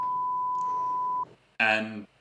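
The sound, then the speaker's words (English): An alarm gives a single steady high-pitched beep lasting just over a second, followed after a short gap by a brief burst of voice. “that is definitely the alarm”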